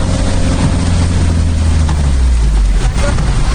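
A car drives along a flooded stretch of the Sonsonate highway near Armenia, El Salvador, with a steady engine rumble and a continuous rushing wash of water that holds throughout without a break.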